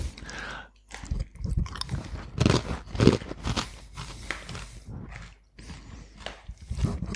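Biting into and chewing sweet potato: many irregular moist crunches and soft mouth sounds, quiet and uneven in rhythm, with short pauses between bites.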